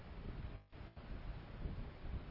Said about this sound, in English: Wind picking up a little bit. And the wind, which had been blowing across the outfield, now blowing a little more in from the outfield towards home plate.